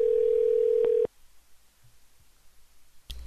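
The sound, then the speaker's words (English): A telephone tone sounds while calling someone back: a loud, steady single-pitch tone holds for about a second and cuts off sharply, leaving near silence before a short, sharp burst right at the end. “Is not available. Yeah, that's still him. Let's call back.”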